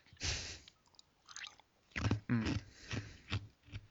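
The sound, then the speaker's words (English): Ice crunching between teeth after a sip of a drink: a run of several crisp, irregular chewing crunches, fairly loud, with no talk. “Sorry, there's more ice in that sip than I wanted to be.”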